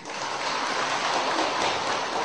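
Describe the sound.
Light morning rain falls steadily as a soft, even hiss of drizzle, with no clear single drops and no voices.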